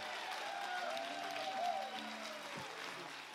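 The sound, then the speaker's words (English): A church audience claps steadily to welcome a bishop to the front, a continuous, fairly soft wash of applause at an even level. “Would you put your hands together and welcome with me Bishop Steve Perea.”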